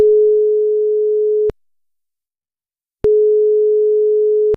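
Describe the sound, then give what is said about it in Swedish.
A telephone line tone as a number is called: a pure, steady mid-pitched tone in two long, even bursts with a pause of about the same length between them, and no voices. “Vi ska ta och slå ett nummer.”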